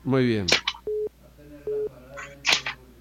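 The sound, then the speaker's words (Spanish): Two short, steady mid-pitched telephone beeps follow a dropped phone call, evenly spaced and separated by a brief gap, with people talking before and after them. “Se nos cayó la llamada ahí.”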